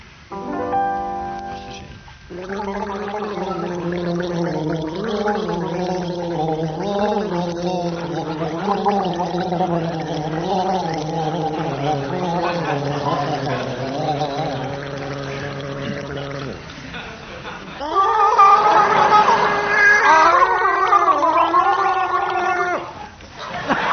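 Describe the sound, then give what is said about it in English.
Two people gargle in a comedy sound-identification round, a long bubbling, warbling gargle with wavering pitch lasting about fifteen seconds, followed by a brief gap and then a louder, higher gargling burst. “will begin gargling as soon as the studio audience have donned their waterproof clothing”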